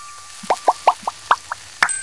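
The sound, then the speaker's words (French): Dish soap poured into a basin of water gives seven bright, hollow plops in a steady rhythm, each short and distinct against a quiet background. “verse un peu de liquide vaisselle dans l'eau. Et ça fait de la mousse.”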